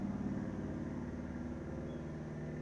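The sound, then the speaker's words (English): Road traffic rumbles along in a steady, continuous low drone that holds at an even level throughout, with no voices. “oh, the traffic is picking up”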